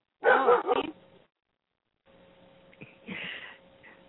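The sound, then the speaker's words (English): A dog gives a short little bark, loud and alone, then quieter, fainter sounds follow after a brief silence. “that little bark sort of agrees with you”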